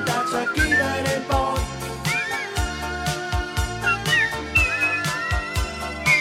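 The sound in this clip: Whistling carries the melody of a song, bright and wavering over a backing of steady drums and instruments, with phrases recurring across the passage.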